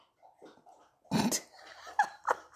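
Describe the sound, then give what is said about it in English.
Snorting, grunting noise from a mixed-breed rescue dog: one loud, rough burst, then two shorter, sharper sounds. Faint soft noises come before it. “I hope you can hear that. That was the dog.”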